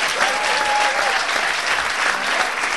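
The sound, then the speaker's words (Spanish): Loud, sustained applause from a crowd, called for as a strong ovation, forming a dense, steady roar of clapping that holds at an even level throughout with no pauses. “Si te atreves a darle un aplauso fuerte a papá, dáselo ahora.”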